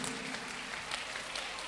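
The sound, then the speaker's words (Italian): Brief applause from a church audience, a soft, even stream of many hands clapping without a break. “Vogliamo applaudire il Re, alleluia.”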